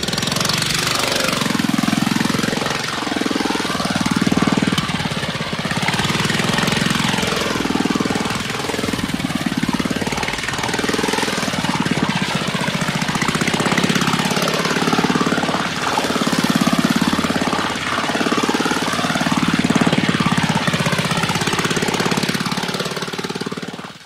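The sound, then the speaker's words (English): Racing cars circle a race course, their engines roaring in repeated swells as they pass, over a continuous rasping drone that never lets up. “Sound. All around. And around. And around. As if you were in the middle of a race course.”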